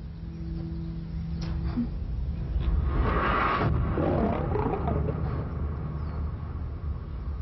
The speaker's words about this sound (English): a lion